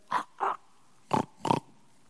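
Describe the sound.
A voice imitates a pig's snort, four short, nasal, breathy grunts in two pairs with a brief pause between the pairs.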